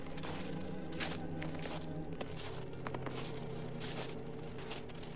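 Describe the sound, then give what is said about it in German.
Footsteps walking across a frozen river at night, a series of irregular, soft steps on ice over a constant broad hiss of background noise. “Über den zugefrorenen Fluss läuft Kunkel zu seiner nächtlichen Insel.”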